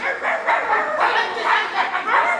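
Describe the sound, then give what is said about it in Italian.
Dogs barking at each other in a negotiation scene over a land sale. Many short, mid-pitched yapping barks come in quick, overlapping bursts without pause, forming an agitated back-and-forth. “alla sequenza memorabile della trattativa tra Mobbi e Brambi, vendita del terreno, esatto, che degenera poi in latrati di cani che abbaiano tra loro”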